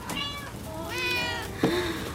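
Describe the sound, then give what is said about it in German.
A cat meows from inside a box, a few short, high, wavering mews over a low steady background rumble. “Eine Katze! War die die ganze Zeit da drin?”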